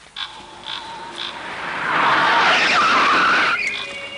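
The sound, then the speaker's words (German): A motorcycle races up a garbage dump slope during a police chase. Its engine roar swells into a loud, rough, sustained surge of whining, gritty noise for about two seconds, then drops back. “versucht doch tatsächlich mit seinem Motorrad den Hang der Müllkippe hochzurauschen.”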